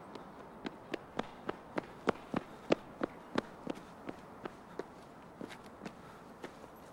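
Running footsteps on a rain-soaked road: many quick, evenly spaced steps, each a crisp, sharp slap, keeping a brisk, steady pace throughout.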